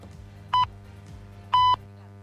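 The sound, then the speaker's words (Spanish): Hourly time-signal beeps on a radio station: two clean electronic tones about a second apart, the second held noticeably longer, over a low steady hum. “está sonando el top horario”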